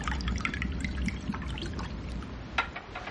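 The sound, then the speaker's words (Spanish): Wine trickles and splashes from a small bottle into a chalice during a communion rite, a steady liquid pour lasting a few seconds over a low background hum, with no talking. “Él vierte una pequeña botella de vino en el cáliz.”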